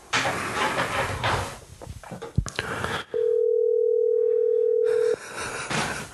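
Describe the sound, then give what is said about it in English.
A telephone dial tone sounds while a call is being placed: a steady, clean single-pitch tone held for about two seconds, with people talking before and after it. “Give him a call here. Right, you hear that?”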